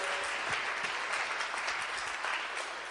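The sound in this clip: An audience at a church gathering applauds to welcome a guest speaker. The clapping is fairly faint, dense and even, continuing for the full three seconds without voices.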